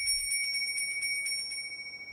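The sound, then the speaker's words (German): A small silver bell rings to call the family in for Christmas gift-giving. Its bright, high jingle repeats in rapid strokes, then stops and leaves a thin tone that fades away. “Hanno wartet ungeduldig, dass Ida endlich mit der kleinen Silberglocke zur Bescherung läutet.”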